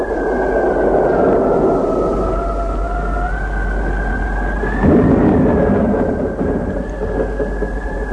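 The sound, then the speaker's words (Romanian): Thunderstorm with a wavering, whistling howl of wind held over a deep, steady rumble, and a louder swell of thunder about midway through. “Furtuna dinăuntru amuțește, furtuna cea de afară”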